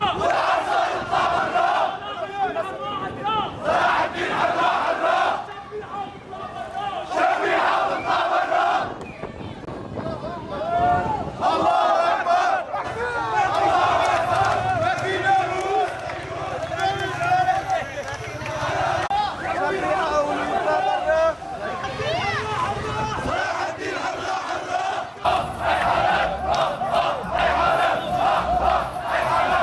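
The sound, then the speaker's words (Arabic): Protesters at an evening demonstration in Jisr al-Shughur, Idlib, chant slogans demanding accountability for remnants of the ousted regime. Loud massed voices repeat rhythmic phrases steadily throughout, with brief pauses between some chants. “هذا وشهدت مدينة جسر الشغور في محافظة إدلب مظاهرة مسائية ردد خلالها المحتجون شعارات تطالب بمحاسبة فلول النظام المخلوع وإبعادهم عن المنطقة.”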